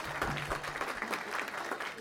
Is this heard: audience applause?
yes